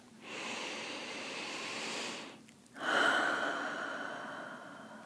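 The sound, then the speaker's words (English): Deep breathing: one long, soft inhale through the nose, a brief pause, then a fuller, airy exhale out through the mouth that gradually fades, quiet and unaccompanied. “inhaling through your nose, and exhaling through your mouth. Good. Taking a few more deep breaths right now, just like that.”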